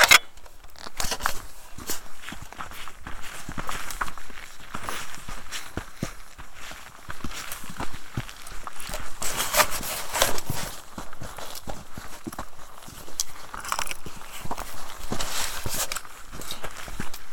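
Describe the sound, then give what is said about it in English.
Footsteps of people walking on a hiking trail, many steady crunching steps that continue evenly throughout at a moderate loudness, with no clear pauses. “So we can keep walking.”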